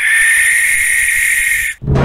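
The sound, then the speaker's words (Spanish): A barn owl screech: a loud, harsh, hissing shriek held steady for nearly two seconds, then a brief break before the sound starts again. “¡Sí! ¡Sí! ¡Es una lechuza!”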